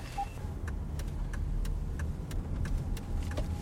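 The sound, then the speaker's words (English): A car fitted with left-side hand controls drives along at a normal pace. A steady low engine and road rumble is broken by faint, regularly repeating clicks, and no one speaks. “And now we're just driving like normal.”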